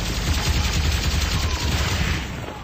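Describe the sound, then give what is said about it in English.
Dense, sustained gunfire from a battle in a huge stone corridor between the outer and inner walls of a fortress: rapid overlapping shots and heavy low thuds roll on loudly without pause, easing slightly near the end. “Return fire!”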